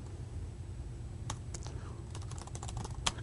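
Typing on a computer keyboard gives a faint, irregular patter of a few scattered key clicks, with one sharper click near the end and no talk.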